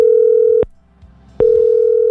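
Loud, steady single-pitched ringing tone on a phone line as an outgoing call is placed. One long tone, a short silence, then the tone starts again, with no other sound.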